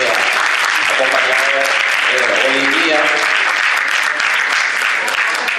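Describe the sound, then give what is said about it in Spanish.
Sustained applause from an audience thanking a departing professor at an academic lecture, a dense, even wash of many hands clapping loudly and steadily from start to finish. “Le damos el aplauso, por favor”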